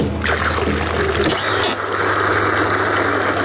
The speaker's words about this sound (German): Dort, wo die Maschine im Sekundentakt das Milchpulver mit dem Wasser vermischt. Immer dann, wenn ein Kälbchen trinken